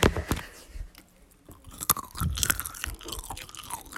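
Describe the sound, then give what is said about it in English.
Crunchy chewing of pistachios: many sharp, irregular bites and crackles follow one another, with softer mouth sounds in the quieter gaps. “Hopefully this pistachio isn't too loud. But, It's an ASMR.”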